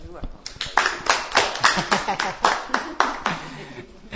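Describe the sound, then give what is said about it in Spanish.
Many hand claps from people applauding, sharp and fairly even in rhythm, following one another steadily for several seconds with voices present alongside. “No, lo podemos aplaudir.”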